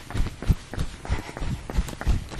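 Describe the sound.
A person jogs with quick, even footfalls, many dull thuds of feet striking the ground in a steady rhythm, with no talking.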